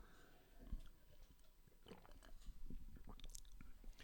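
Someone tastes a milky-looking ice pop that is not fully cold. Faint, irregular bites and soft chewing crunches come through without talk.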